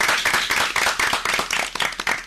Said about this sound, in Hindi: लक्ष्मी के लिए जोरदार तालियां हो गए